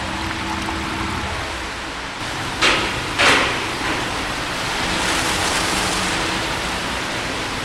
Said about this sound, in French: Oui, donc là, on a effectivement le canal qui se remplit d'eau.